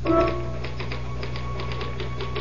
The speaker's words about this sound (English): I typed the results of the fifth and sixth races at Aqueduct.